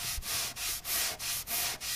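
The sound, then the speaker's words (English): Sanding on the firewall of an FM-2 Wildcat aircraft being restored after sinking: a loud, hissing abrasive rasp in steady back-and-forth strokes, each pass briefly dipping before the next. “sands down a firewall on an FM-2 Wildcat.”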